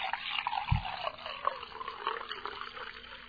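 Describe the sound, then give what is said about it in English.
Coffee poured into a cup, a soft, continuous trickle of liquid with small gurgling fluctuations, quiet and muffled, with one brief low thump partway through. “while I pour myself another cup of coffee”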